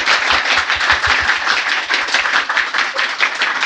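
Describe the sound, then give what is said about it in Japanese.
Applause from an audience at a live event, dense, continuous clapping with steady loudness throughout, with no voices over it. “拍手 拍手”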